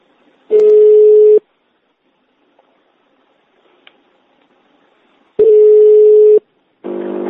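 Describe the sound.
Telephone ringing tones sound as a call is connected. There are two long, steady, loud beeps separated by several seconds of near silence, and another tone begins right at the end.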